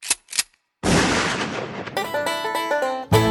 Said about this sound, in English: the song that first introduced me to you was one that began with a shotgun.